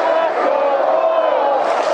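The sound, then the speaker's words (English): A baseball crowd of about 26,000 at Kauffman Stadium stands and chants in loud, sustained unison, a dense roar of many voices that holds steady throughout. “26,477 at Kauffman Stadium. Standing and chanting and clapping and willing.”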